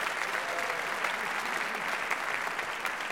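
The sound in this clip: Audience applause welcoming a speaker as he takes the stage. The dense, even clapping holds at a steady level for its full length, with no break.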